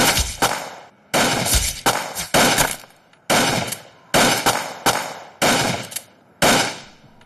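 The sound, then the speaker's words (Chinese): Gunfire as agents shoot at a group of bandits: many loud, sharp bursts of shots in an uneven rhythm, each with a short ringing decay, with no talk. “鲁明和特务们向几个土匪开枪射击”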